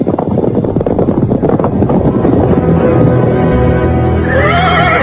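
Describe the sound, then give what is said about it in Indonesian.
A horse whinnies as riders ride away from a palace, a high, quavering neigh near the end that follows a loud, continuous rushing noise like wind. “Dia naik di atas punggung kuda bersama Rakuti. Mereka berkuda meninggalkan Istana Majapahit menuju ke arah selatan.”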